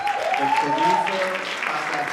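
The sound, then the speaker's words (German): Audience applause in a cinema after the premiere of an Iranian feature film: dense, steady clapping throughout, moderately loud, with a voice faintly audible underneath. “Erst dann Einige Sekunden verzögert, bricht der Applaus los.”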